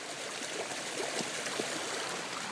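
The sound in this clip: Water rushing through roadside ditches swollen like rivers: a steady, dense, hissing flow with faint gurgles, constant in level throughout and with no voices.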